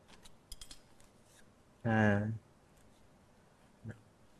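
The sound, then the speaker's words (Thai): Scissors cutting through over-long pipe insulation during an air conditioner installation, one loud half-second cut standing out against a few faint clicks before it and a short tick after. “และทำการตัดตามระยะนะครับที่กำหนดนะครับนะตัดในส่วนของอินซูเลชันที่ยาวเกินไปนะครับ”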